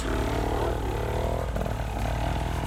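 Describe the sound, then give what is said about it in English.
A motorcycle engine runs after being bump started, giving off a continuous rumbling drone with a buzzy, harmonic tone. It stays loud and fairly even throughout. “Got his bike started because he bump started it.”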